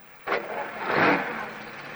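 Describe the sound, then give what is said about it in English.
A car engine swells and then fades as a workman drives off from a frame house under construction, kicking up dust, a brief rush lasting about two seconds. “The last of the workmen leaves in his car.”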